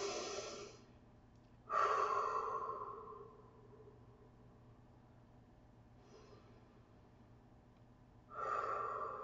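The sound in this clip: Slow, deep breaths, airy and hissing, come as a few long inhales and exhales separated by quiet pauses. They are faint and heard alone, without speech.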